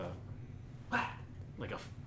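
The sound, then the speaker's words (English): A dog barks twice in short, fairly faint bursts spaced under a second apart, over a steady low background hum. “I'm gonna kill this dog.”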